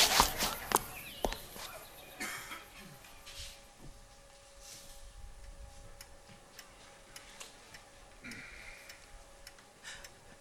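Quick footsteps of people hurrying on foot, a burst of rapid, sharp steps at the start that soon thins to faint, light ticking over a steady low hum.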